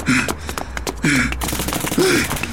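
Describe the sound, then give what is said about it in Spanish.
Rapid gunfire from soldiers shooting in an audio drama, with dense, steady bursts of shots and strained vocal gasps or cries over them. “Los soldados nos disparan.”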